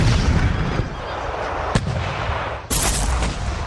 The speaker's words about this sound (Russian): Наши пушки неожиданно появились в окошках крепости и как разом бахнули!